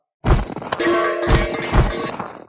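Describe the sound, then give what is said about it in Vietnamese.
Spirit stones tumble out of a white storage bracelet and clatter into a pile: a sudden crashing burst of hard impacts with ringing tones, followed by a few more rattling surges as they keep falling. “Sau một hồi âm thanh rơi đồ, số tiên nguyên thạch còn nhiều hơn cả Phong Thiên Đô cùng Tiêu Tấn Hàn cộng lại, phải nhiều hơn gấp đôi.”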